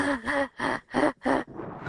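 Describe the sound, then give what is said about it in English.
A person imitates the gasping, labored breathing of severe breathlessness during serious illness: four harsh, breathy gasps in an uneven rhythm, followed by a softer, trailing breath. “I couldn't breathe, like, at all. Like, you know how you breathe normally? Yeah. I used to breathe like this.”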